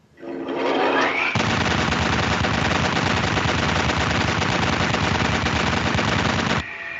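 A machine gun sound effect used to open a rapid-fire segment: one loud, dense, continuous burst of gunfire lasting several seconds before cutting off abruptly.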